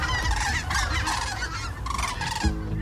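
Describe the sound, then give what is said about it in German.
Cranes call as they fly overhead in autumn in Mecklenburg-Vorpommern. Several overlapping honking, trumpet-like cries repeat in an uneven chorus, rising and falling as the flock passes. “Da fliegen die Kraniche über uns hinweg, schreibt Heike”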